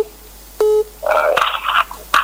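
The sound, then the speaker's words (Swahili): Telephone tones sound as a call comes in. A short flat beep is followed by a warbling series of electronic tones and a final brief tone, all loud and with no talk. “Napokea simu nyingine hapa.”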